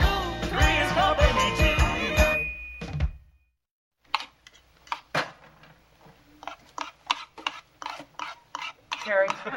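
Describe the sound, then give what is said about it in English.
A knife cuts scrambled eggs on a plate. After a song ends and a brief silence, a run of small irregular clinks and scrapes of cutlery against the dish follows, fairly faint. “You're cutting the scrambled eggs with your knife.”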